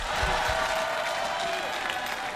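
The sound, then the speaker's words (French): Audience applause at a cultural institute venue in Congo, a continuous, even roar of many hands clapping that holds steady throughout. “Applaudissez-vous.”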